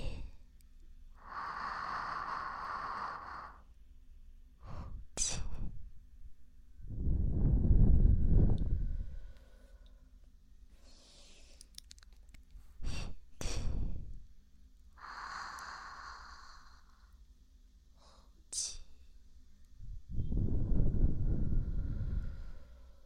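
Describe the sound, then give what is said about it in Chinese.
Slow, deep breathing during a relaxation session: a few long, soft, airy inhales and exhales, quiet and unhurried, with brief sharp sniffs and clicks between them. “看着我的眼睛，然后深呼吸，吸气。”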